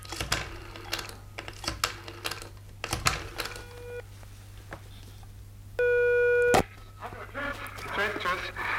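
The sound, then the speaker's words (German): A telephone call is placed to a recording studio: scattered dialing clicks, then a ringing tone that stops, a second louder steady tone, and a voice faintly at the end. “Wer arbeitet im Studio 6? Ich werde mal anrufen.”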